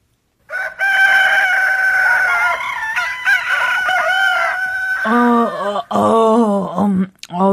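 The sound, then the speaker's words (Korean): A rooster crowing at dawn: a long, drawn-out, loud crow that holds a steady pitch, followed by several shorter broken calls. “이윽고 저편 어디선지 진짜 닭 울음소리가 일어났다.”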